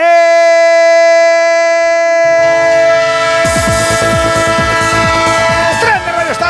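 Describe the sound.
A train sound effect: a loud, sustained multi-tone horn blast that rumbling joins, then busy rhythmic clattering builds beneath the horn toward the end.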